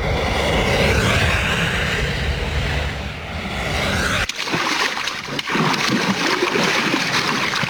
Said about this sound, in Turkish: Bursa'da sıcak havadan bunalan bir ayı bölgede bulunan su yalaklarından birine girdi, kana kana su içti.